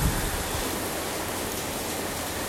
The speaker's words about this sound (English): sound of the rain that I'm able to hear and it gets recorded